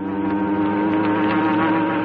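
A hornet buzzing sound effect: a loud, steady, harmonic drone with a rough, engine-like rasp that holds without a break, wavering slightly in tone.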